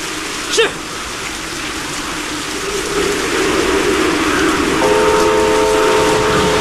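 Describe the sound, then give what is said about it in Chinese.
A train on a test run over a rebuilt, collapsed railway section in heavy rain: a broad, steady rumble and hiss of rain that grows louder partway through. A brief click comes near the start, and a sustained tonal note enters near the end. “不久以后，詹天佑夜以继日赶修的铁路坍塌路段终于重新试车了。”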